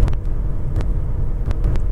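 Steady road rumble from a car on a drive to work: a continuous low roar and hum with a few faint ticks above it.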